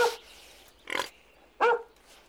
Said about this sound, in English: chases all the pigs into their little house